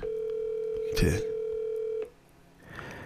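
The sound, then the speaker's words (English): A steady, low ringback tone plays on an outgoing phone call. One long, even burst is briefly overlapped by a voice, then stops into near silence before a voice is heard again. “Is she gonna pick up the phone? Let me see if she pick up the phone.”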